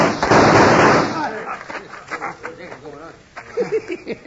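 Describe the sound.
Gunfire in a western radio drama, a single loud, harsh burst lasting about a second, followed by men's voices talking.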